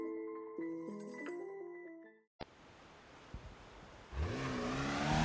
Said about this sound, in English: The Porsche tore up the Pacific Coast Highway. It headed north, away from Los Angeles.